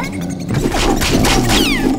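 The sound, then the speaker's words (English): Impact effects from a video game as a player jumps and strikes a bat enemy with a club: a few sharp whacks and crashes mixed with bright sweeping game tones over a dense, steady background. “you just jump up and hit them with your club. Well, you could use another weapon too, but the club works well. Just like this.”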